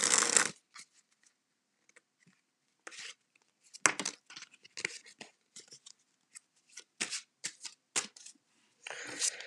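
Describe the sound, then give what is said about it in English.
A deck of playing cards with a cushion finish, made in the USA, is riffle shuffled in many short, crisp papery bursts separated by quiet pauses, with a longer flurry at the start and at the end. “That was a riffle shuffle,”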